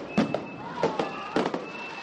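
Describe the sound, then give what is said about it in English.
Fireworks explode at night over a Greek port town during a street celebration for the Olympic torch relay: three fairly faint, evenly spaced bursts, each a sharp crackling pop, with a thin steady whistle-like tone between them. “Fireworks lit up the night sky earlier this week”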